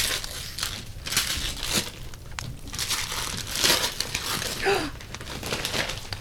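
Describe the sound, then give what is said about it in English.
Gift wrapping paper is torn open and crumpled, producing many bursts of crackling, crinkling paper noise at an uneven, busy rhythm. “Nice wrapping. Thank you. I'm going to feel bad, but I'm going to tear it up right now.”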